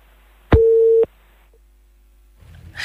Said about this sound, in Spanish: qué pena, hemos perdido esa llamada